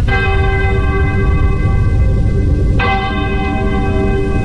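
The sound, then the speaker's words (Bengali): A church clock bell strikes two: deep, resonant metallic tolls, one already ringing out and a second struck near the end, each sustaining a long humming decay rich in overtones. “গির্জার ঘড়িতে ঢং ঢং করে দুটো বাজল।”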